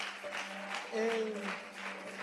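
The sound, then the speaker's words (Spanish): A church audience applauds during a worship service, soft, hushed clapping with a voice speaking over it. “Una ofrenda de aplausos al Señor.”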